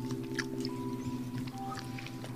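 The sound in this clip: Soft, continuous, moist chewing of a chewy candy likened to a fancy Tootsie Roll, steady and fairly quiet, with no talking.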